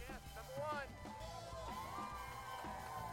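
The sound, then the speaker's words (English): Faint crowd cheering at a SpaceX rocket test, a continuous wash of voices with scattered high whoops and shouts throughout. “Oh, they're cheering.”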